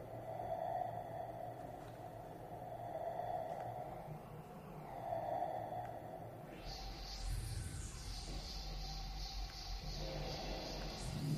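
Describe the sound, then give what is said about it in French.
Shrill electroacoustic sound transposed very high, played at 14 times its original speed, enters after a steady low drone and turns into thin whistling, gliding tones over a rumbling low end. “Des transpositions très aiguës. Là, je fais 14 fois la vitesse d'origine. Transforme aussi complètement la perception.”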